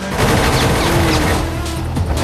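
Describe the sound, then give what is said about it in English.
Helicopter machine guns firing and tearing up a road behind a speeding motorcyclist: a dense, continuous, loud barrage of rapid gunfire and crashing impacts with no clear break between shots. “The chopper lets rip with its guns, tearing up the road behind her.”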